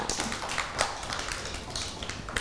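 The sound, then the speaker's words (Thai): Audience clapping for a small child, a quiet patter of quick, light claps running steadily without pause. “ปรบมือให้น้องหมุยหมุยด้วยค่ะ”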